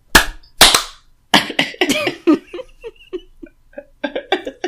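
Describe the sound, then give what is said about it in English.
Sharp, loud hand claps on a countdown: two isolated cracks, then a quicker cluster of claps. Laughter and giggling voices follow, with a few softer claps near the end. “Clapping in 5, 4, 3, 2, 1.”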